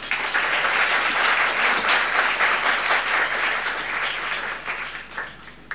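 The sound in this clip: An audience applauds to welcome a speaker at a talk, a dense, sustained clapping that holds steady, then thins and fades in the final second.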